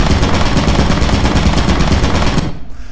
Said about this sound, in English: there is I don't know if you'll understand bullets or a turret, but there is a turret in there